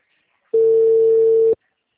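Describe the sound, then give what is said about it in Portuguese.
A telephone call tone: one steady, mid-pitched electronic beep lasting about a second, loud and clean, with nothing else around it. “ele tá tentando falar com o senhor agora por telefone”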